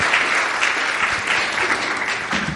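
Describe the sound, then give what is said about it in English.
An audience applauds to welcome a speaker, a dense, steady clatter of many hands clapping that holds evenly throughout without voices on top. “why don't you put your hands together and welcome Adam as he comes to share with us.”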